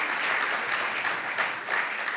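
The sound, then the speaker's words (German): Church audience in Berlin applauding the team, a dense, steady wash of many hands clapping at an even loudness throughout. “Können wir dem Team mal einfach einen riesen Applaus geben.”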